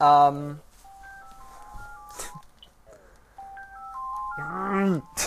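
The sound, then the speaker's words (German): A mobile phone rings with an incoming call, its melodic ringtone a short stepped sequence of electronic beeps played twice. A voice talks before and after. “jetzt ruft mich hier jemand an, das ist ja unglaublich.”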